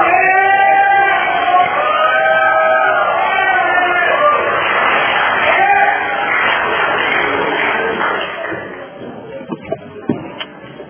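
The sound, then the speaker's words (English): Crowd cheering and applause from a meeting audience in Fresno welcoming a speaker, a dense, steady roar with raised voices mixed in that holds for about eight seconds before thinning out, leaving a few scattered sounds. “So. Give a big hand to welcome Jeff.”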